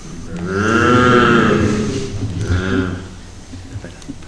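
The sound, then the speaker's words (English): A big black cow moos deeply in a stable. One long, low, drawn-out moo is followed by a shorter second moo, with faint rustling between and after them. “The deep moo of a big black cow.”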